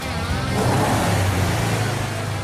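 A car engine revs as the accelerator is pressed, after brake work in a garage. The engine makes a loud, steady roar with a low rumble that holds for the whole clip.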